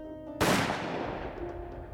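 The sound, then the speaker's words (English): A single sharp gunshot, dramatizing the shot that killed John Wilkes Booth inside a burning building: an abrupt, loud crack followed by a long, slowly fading tail. “With a sharp crack, Booth fell to the ground. His gun helplessly clattered from his hands. The assassin had been shot.”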